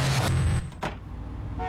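A school bus driving past gives a loud low engine rumble that drops away after a moment, followed by a brief knock and quieter road noise.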